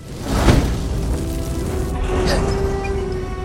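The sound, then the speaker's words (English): A furnace igniting gives a soft whooshing thump, then a steady low roar with a second, milder surge partway through. “Downstairs, a furnace lights.”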